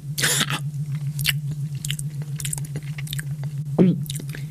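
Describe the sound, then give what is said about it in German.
Someone bites into an already-bitten apple and chews it, making a series of sharp crunches and wet chewing sounds over a steady low hum. “entdeckt einen angebissenen Apfel. Oh, lecker.”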